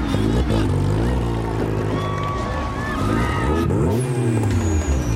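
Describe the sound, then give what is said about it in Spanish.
Race car engines drone and rev loudly and continuously as cars line up to start a race, with other sounds layered over the engine noise throughout. “Todos los autos a sus posiciones. Va a dar inicio la carrera.”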